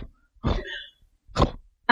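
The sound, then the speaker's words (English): A rabbit snorting in three short, rough bursts of breathy noise separated by silence, the last one briefest. “He is snorting. Hello, the other rabbit. Hello, the rabbit.”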